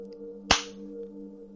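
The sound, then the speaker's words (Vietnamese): A single sharp slap across the face, an audio-drama sound effect, cracks out briefly over a steady low drone that continues before and after it. “Cao Cường tát cho Thụy một cái”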